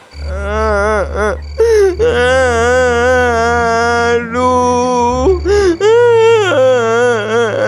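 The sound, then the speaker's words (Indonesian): A boy named Irwan cries and wails with a stomach ache. Loud, drawn-out sobbing moans rise and fall in long voiced waves, broken by short catches of breath, alongside a steady low hum. “Dia menangis.”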